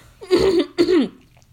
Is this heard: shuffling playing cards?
no

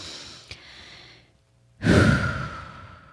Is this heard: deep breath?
yes

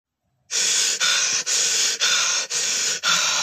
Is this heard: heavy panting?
yes

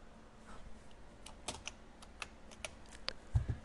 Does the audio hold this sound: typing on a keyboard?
yes

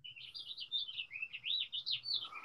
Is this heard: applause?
no

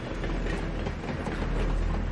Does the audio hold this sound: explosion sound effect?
no

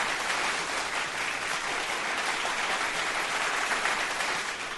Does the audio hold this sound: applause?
yes

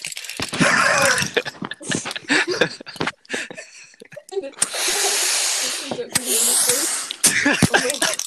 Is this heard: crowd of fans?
no

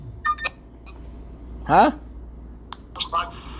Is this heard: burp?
no

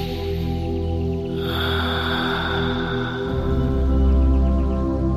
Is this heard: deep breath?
yes

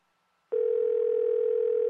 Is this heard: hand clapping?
no

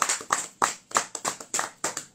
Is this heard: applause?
yes

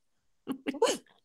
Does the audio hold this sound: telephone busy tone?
no

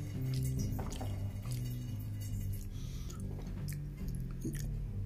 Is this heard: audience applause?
no

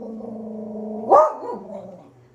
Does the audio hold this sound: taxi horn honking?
no

